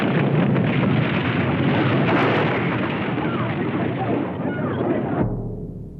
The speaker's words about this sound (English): April 18th, 1906, an earthquake shattered San Francisco. It was caused by a huge rupture in the fault line that runs below the city. A Hollywood film recreated that disaster.